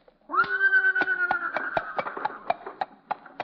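A horse named Leona whinnies as it pulls a buggy with a market's name painted on its side, a radio sound effect: a long, loud, harmonic neigh that slowly trails off under a steady run of sharp, evenly spaced clops.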